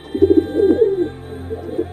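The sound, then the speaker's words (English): A pigeon coos in two low, soft, throaty phrases. The first is a longer rolling coo, followed after a short pause by a briefer second one. No voices are present. “The pigeon cooed sadly.”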